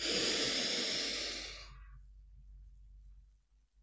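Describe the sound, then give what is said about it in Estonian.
A strong, deep breath in, taken during a guided visualization exercise: one long, hissing inhalation of about one and a half seconds that fades into near silence and a low hum. “vaata ümbrust enda ümber ja hinga hästi tugevalt nüüd sisse.”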